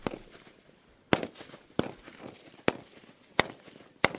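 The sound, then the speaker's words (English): Rifle shots ring out at a firing range during marksmanship training of navy recruits from a defence force at a base east of Dili: five sharp, loud cracks at irregular intervals, with low rustling between them. “Recruits of the Defence Force, the FFDTL, are receiving training at a rifle range at a base in Metanaro, east of Dili.”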